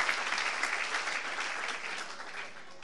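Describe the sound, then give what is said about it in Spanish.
Applause from an audience at a morning church service, a dense, steady patter of many clapping hands that holds at an even level throughout and eases off slightly at the end. “Dele un aplauso al Señor en esta mañana.”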